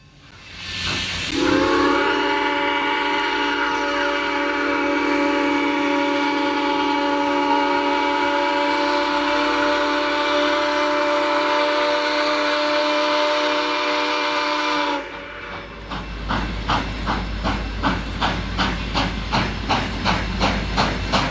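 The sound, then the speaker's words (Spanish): A steam train whistle blows as the train departs, one long sustained blast over loud hissing steam. After it stops, rhythmic chuffing builds in steady beats. “Rápido, suban al tren.”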